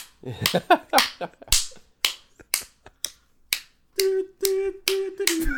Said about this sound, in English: He's just slapping it at this just point. Man, that's got a bruise or something. Oh, God. That was a loud one. You're just pounding it.